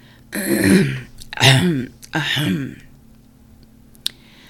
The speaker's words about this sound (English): He cleared his throat.